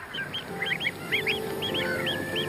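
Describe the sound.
Greylag geese, some moulting adults among them, honk repeatedly in a flock, with many short nasal calls overlapping at a moderate level over a steady background hiss.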